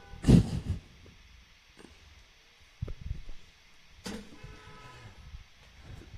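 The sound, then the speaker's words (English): Car horns honking outside, faint sustained horn tones sounding now and then among scattered low bumps and soft background noise, with no talk. “Do you see all the horns honking out there?”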